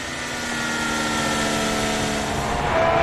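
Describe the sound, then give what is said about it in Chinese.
Ferrari race car engine on a circuit, a steady droning note with clear harmonic layers that holds at a constant pitch and a fairly loud, even level throughout. “法拉利的赛车，来看啊”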